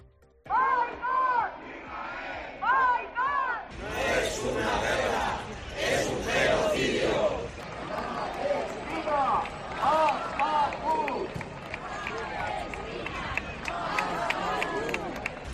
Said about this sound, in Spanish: Ese era el sonido de esa manifestación, una acción que los sindicatos convocantes tras este han indicado que ha sido cerca de 15.000 las personas que han participado en este.